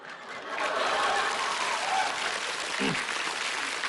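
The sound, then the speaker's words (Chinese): Applause from the audience at a Chinese comic crosstalk performance: a steady wash of many hands clapping that swells early, then holds at an even, fairly faint level to the end. “别鼓掌，别鼓掌。”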